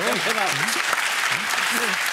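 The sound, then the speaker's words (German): Applause from a television studio audience, loud and dense throughout, with people talking over the clapping. “Guck mal, der Applaus spricht für sich.”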